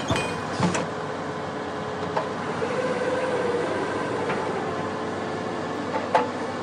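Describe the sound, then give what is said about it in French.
A homemade brush-cutting machine runs with a steady, mid-pitched mechanical drone. A few sharp clicks and knocks stand out now and then over the continuous hum. “Et là, ça, c'est le bruit de votre machine. Mmh. C'est la machine que vous avez construite.”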